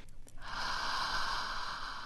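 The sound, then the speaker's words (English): A long, soft whispered 'ah' exhale, a calming breathing exercise for drivers stuck in traffic, forms a steady breathy hiss after a couple of brief faint sounds at the start, with no talk. “Sit up straight, she says, and breathe. It's called the whispered ah.”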